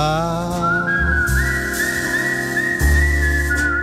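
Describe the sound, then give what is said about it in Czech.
A person whistles a clear, steady tune at a fairly high pitch, with small wavering shifts, held almost without a break over a soft low background hum. “někdo si ved mě hvízdá a já chci”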